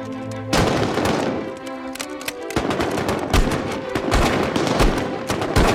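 Rifle gunfire from guardsmen lying prone with rifles resting on sandbags: a dense, rapid volley of many sharp, loud cracks overlapping one another, starting abruptly after a brief lull and continuing to the end.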